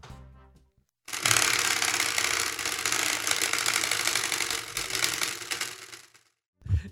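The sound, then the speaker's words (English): A prize wheel with a sprinkler-head pointer spins with a dense, rapid mechanical clicking that runs steadily for about five seconds, then cuts off, followed by a short noise at the very end. “I've repopulated our spinny wheel with some new categories this year. So I will give it a spin.”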